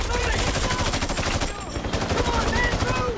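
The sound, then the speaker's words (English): Heavy battle gunfire rattles as mercenaries fight through debris and buildings: dense, continuous bursts of rapid automatic fire and shots crowd together at a loud, unbroken level for the whole stretch. “The mercenaries fight their way under heavy fire through debris and buildings.”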